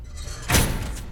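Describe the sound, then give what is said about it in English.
A compartment door being shut: one dull thump with a short rushing swell, standing out from a steady low background hiss. “She shuts the door.”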